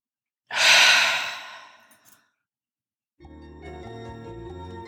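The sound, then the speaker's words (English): A deep breath drawn in and sighed out: one long, loud, airy rush that tapers away, then silence, then soft music. “deep breath in and sigh it out. One more time, deep breath in.”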